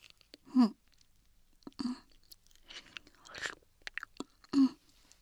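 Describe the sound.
Chewing and mouth sounds of someone eating food, with a few distinct crunchy bursts separated by quieter, softer chewing, fairly quiet and without talk.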